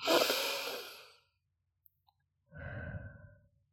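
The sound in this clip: Deep breathing during an anxiety-calming exercise with a hand placed on the heart: two long, airy breaths separated by a pause. The first is loud and bright, the second lower and softer. No one talks.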